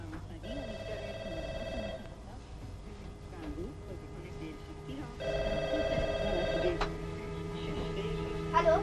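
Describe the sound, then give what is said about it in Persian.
A telephone rings in two long trilling bursts separated by a pause, faint and set under steady background noise and a voice. “بابا تلفن.”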